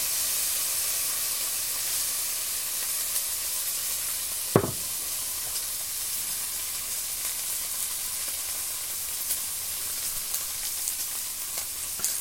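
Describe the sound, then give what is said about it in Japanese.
Pork belly sizzling steadily as it pan-fries, a constant bright hiss and crackle with one sharp clack partway through and a few faint pops, no talking. “継続して焼いてます。”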